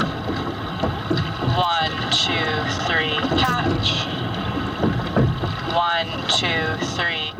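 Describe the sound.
Rowing sounds of an eight-person racing shell during a learn-to-row session on a lake, with water and wind noise running beneath several voices talking and calling out.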